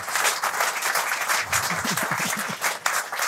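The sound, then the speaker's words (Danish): A studio audience applauds warmly to welcome a guest, a chief analyst and portfolio manager, on a Danish investment programme. The clapping is dense and steady throughout, with many hands at once and slight swells in level. “Giv ham også en varm hånd.”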